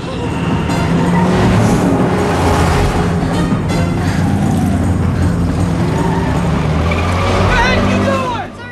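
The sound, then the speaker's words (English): Traffic noise from oncoming cars and a truck rushing past, a dense, loud, continuous roar of engines and tyres that holds steady throughout and drops away only at the very end. “Maggie darts in and out of the oncoming cars and truck as she makes her way towards Herbie.”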